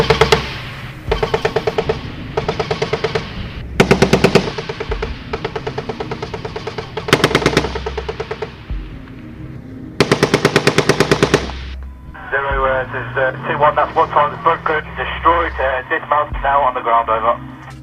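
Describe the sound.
Fusilier soldiers fire machine guns on a training range, with many short, sharp bursts of rapid gunfire separated by brief pauses. A voice speaks over a radio-like channel near the end.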